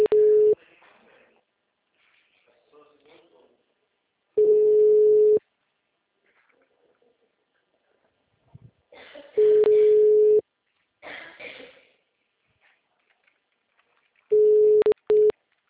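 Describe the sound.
Outgoing telephone call ringing through: a steady low ringback tone sounds in roughly one-second bursts about every five seconds, with faint murmuring voices in the gaps between rings.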